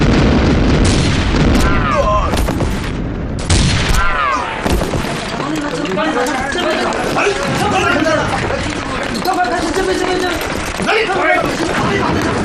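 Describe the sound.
Cannons firing in a battery: heavy, sharp booms burst out amid a dense roar of commotion, with loud shouted voices throughout.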